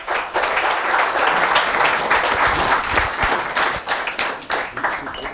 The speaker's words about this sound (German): Vielen, vielen herzlichen Dank, noch einen Abschiedsapplaus.